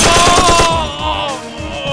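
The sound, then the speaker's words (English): A swift burst of automatic fire from a Stechkin pistol shot into a dining room: many rapid, loud cracks packed into under a second, then a ringing tail that fades out. “Bolin darted to the left to avoid the fire that homed in on him at shoulder level, and sent a swift burst from the Stechkin into the dining room.”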